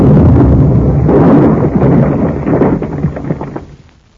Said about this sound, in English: you wiped them out with a hand grenade.